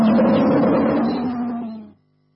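A tiger roar sound effect in a radio station jingle. A single loud, sustained, rough roar holds steady and then fades away after about two seconds.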